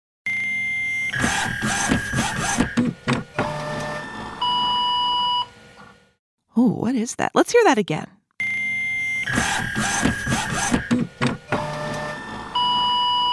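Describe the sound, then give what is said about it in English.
A fax machine's electronic tones: steady beeps, sustained pitches and harsh warbling screeches, played twice with a short stretch of talk between. “So, what's that sound? A fax machine.”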